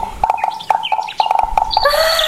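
Bird calls from a woodpecker in a tree: many sharp chirps and clipped pulses in quick, uneven succession, then a sustained high trill at the end, clear and fairly loud.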